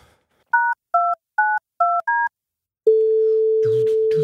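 A call being placed on a telephone: five short keypad dialing tones, followed by a long, steady, mid-pitched ringing tone that lasts to the end, with faint scattered noise over its last part.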